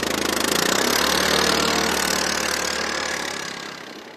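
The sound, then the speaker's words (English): A snow grooming machine's engine drones steadily on a Nordic ski trail with a rough, mid-pitched idle. It swells slightly, then gradually eases and thins toward the end, with no voices. “But toward the end of the ride, when our trail crosses a Nordic ski trail, a grooming machine approaches. It slows, and the groomer gives us a piercing stare.”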